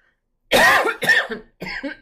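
A person clears their throat with a few rough, voiced bursts. Two longer hacks run back to back, then a shorter one follows after a brief pause, fairly loud and heard alone.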